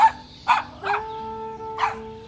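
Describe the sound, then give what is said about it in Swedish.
A frightened dog barks four times in short, sharp bursts with uneven gaps, while a thin, high whine hangs between the barks. “Han skäller och gnyr och springer i cirklar.”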